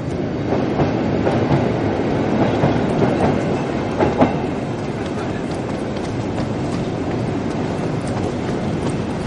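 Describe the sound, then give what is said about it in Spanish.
A subway train at an underground platform gives a loud, steady rumbling roar with rattling wheel clatter that runs through the whole clip without pause. “baja a un andén del suburbano”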